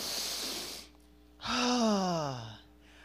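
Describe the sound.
A deep breath drawn in during a guided spoken prayer, a long airy inhale followed by a voiced sighing exhale that slides downward in pitch.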